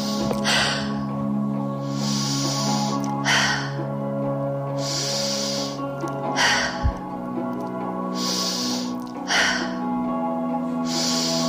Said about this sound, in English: Slowing the breath down.